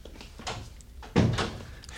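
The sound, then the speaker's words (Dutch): A door shutting with one solid thud just past the midpoint, louder than the low, steady background before and after it. “Deur dicht.”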